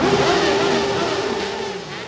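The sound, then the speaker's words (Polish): Many motorcycle engines roar together at a funeral ceremony attended by several hundred riders. The loud, rumbling roar is continuous and sustained throughout, with no breaks. “W ceremonii pogrzebowej wzięło udział kilkuset motocyklistów, którzy przyjechali z całej Polski. Pożegnali swoich przyjaciół rykiem silników.”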